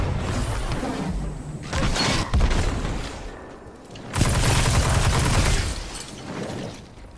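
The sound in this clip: Rapid submachine gun fire in a video game capture-the-flag match: harsh, dense bursts come in two loud stretches, one short and one longer, with quieter gaps of game noise between them.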